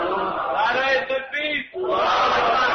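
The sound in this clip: A crowd chants a slogan in loud unison, their sustained voiced shouts rising together, breaking off briefly near the middle and then resuming at full strength.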